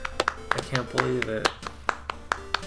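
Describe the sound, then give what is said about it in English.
Scattered hand claps from an audience, meant as a standing ovation, come as a few sharp, separate slaps rather than a full roll of applause, with people talking between them. “Whoa, it's standing ovation. A whole standing ovation, the whole audience.”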